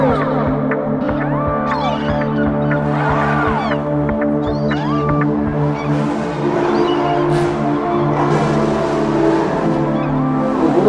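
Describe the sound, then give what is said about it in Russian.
Cars drifting on Nevsky Prospekt in a show of extreme driving, with engines droning and revving under many high, wavering tyre squeals that rise and fall throughout, loud and continuous. “В эти выходные Невский проспект стал площадкой для экстремального вождения. Показательный дрифт прямо на глазах полицейских.”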